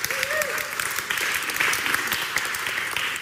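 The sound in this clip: An audience welcomes two guests with sustained applause, a dense, steady clatter of many hands with small swells in loudness, continuing at an even level throughout.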